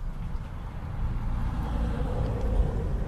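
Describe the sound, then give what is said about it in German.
A postal delivery vehicle drives past with a steady, broad low rumble that swells slightly toward the end, with no voices over it. “die Post. Die Post fährt ja auch vorbei.”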